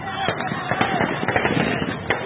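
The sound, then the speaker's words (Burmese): Tear gas canisters fired at protesters at a demonstration in Kachin State, Myanmar, give many irregular sharp pops and bangs over a dense, harsh, noisy background. “ကချင်ပြည်နယ်မှာဆန္ဒပြသူတွေကိုမျက်ရည်ရိုးပုံးတွေတုံပစ်ခတ်လူစုခွဲတဲ့”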